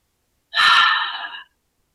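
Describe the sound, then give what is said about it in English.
A single deep breath, heard alone as one long airy inhalation that lasts about a second and fades out at the end. “So maybe let's just take a few deep breaths to just...”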